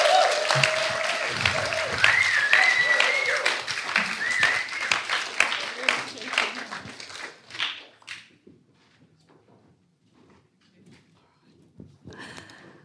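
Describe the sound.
A church audience at a baptism service applauds in a welcome, with loud, dense clapping for several seconds that gradually thins and dies away into near quiet with scattered small sounds.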